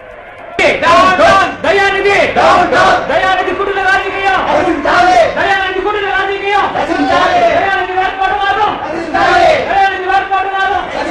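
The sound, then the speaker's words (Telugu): A crowd shouts outside: many voices yell and chant together in loud, continuous, rhythmic bursts with brief dips between phrases. “ఏమిటా బయట కేక? జనం గుమిగూడారు, వాళ్ళకి ఏం కావాలి?”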